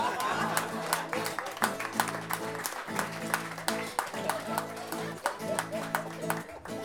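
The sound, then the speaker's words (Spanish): Audience applause at a live payador improvised-verse event, a steady wash of clapping with sharp individual claps, sustained fairly loud throughout with music or voices mixed underneath. “Un aplauso para ellos y que viva el Open Man.”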